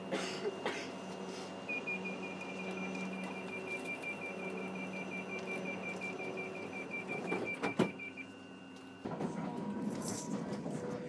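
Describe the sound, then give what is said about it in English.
Steady rumble inside a moving passenger train carriage at the front of the train near Twickenham, with a long run of rapid, high-pitched beeps over the hum and a louder stretch of rolling noise near the end. “Loads and loads of people got off this carriage at Twickenham, and probably because it's the front of the train and the exit's at the front of the station,”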